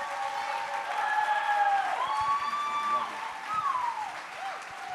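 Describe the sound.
An audience at a church student gathering applauds to welcome a new student pastor. Steady clapping swells and then eases, while voices call out over it.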